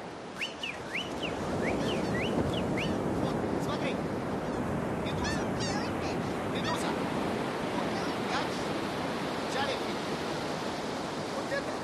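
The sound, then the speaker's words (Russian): Seagull cries by the sea: several short, high, squealing calls come in brief bursts over a steady roar of surf and wind. “Смотри, вот. Смотри, чайка.”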